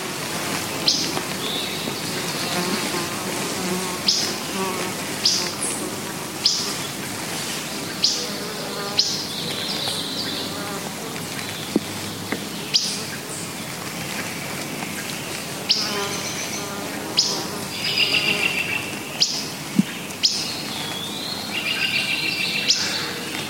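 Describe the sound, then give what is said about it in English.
Lincoln's sparrow song, bright, bubbly warbled phrases recurring many times every few seconds over a steady background drone of insects. “Lincoln Sparrow.”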